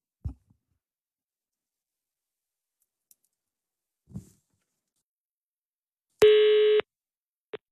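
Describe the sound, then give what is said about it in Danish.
Telephone call being placed to the Danish police intelligence service's duty line: a few sharp clicks, then a single steady buzzing tone lasting about half a second, followed by another brief click. “Ja, altså Rasmus Bruun og jeg, vi prøvede at ringe til PET for at se, hvad de sagde.”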